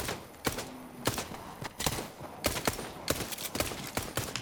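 Gunfire in a video game, with many sharp shots cracking out in irregular bursts over a low background rumble.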